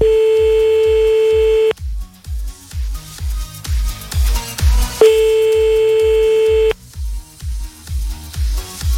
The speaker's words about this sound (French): 22h38, on y va, on appelle maintenant.